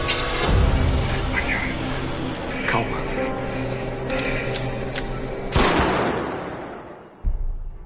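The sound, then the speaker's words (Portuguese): Gunshots ring out in a TV drama scene where a woman fires at a man, a few loud, sharp bangs standing out from a dense, continuous soundtrack. “cena foi essa, gente, da Maria da Paz atirando no Regis”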